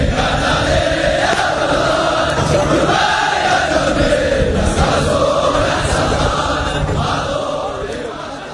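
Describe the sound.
Gorgor army soldiers shouting and bellowing threats together during training, a loud, unbroken mass of hoarse voices that drops off slightly near the end.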